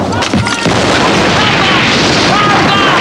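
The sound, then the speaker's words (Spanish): A grenade explodes in the street: a sharp, heavy burst near the start gives way to a loud, sustained roaring rumble that fills the rest of the moment. “Otra granada entra en la habitación y Melis la lanza a la calle.”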